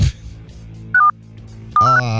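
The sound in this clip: Mobile phone keypad tones beep as a phone is accidentally touched during a call: a short pair of tones, then a quick run of several bright beeps, with voices murmuring underneath.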